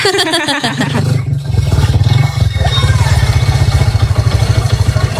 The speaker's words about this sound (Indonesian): Hati-hati tuh, keserempet. Ada motor lewat.